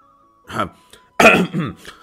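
A man gives dry, throat-clearing coughs: a few short, rough voiced bursts with a brief pause between them.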